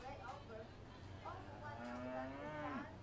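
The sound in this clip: A red-ribbon calf moos in a livestock barn at a fair, giving one long, low moo over steady background noise after some shorter sounds.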